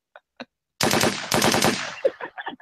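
Automatic gunfire from an AK-47 in a comedy skit: a few sharp clicks, then a loud rapid burst of shots lasting just over a second, followed by a few scattered shorter bangs.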